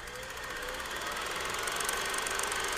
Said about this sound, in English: Can we use your projector? Well, hang on. Let me blow the dust off of it. Go ahead.